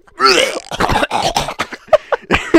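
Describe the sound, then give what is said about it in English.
Choking sounds from a person: a few strained, gagging coughs and throat-clearing bursts come in uneven, loud spurts with short gaps between them. “Oh, you're choking.”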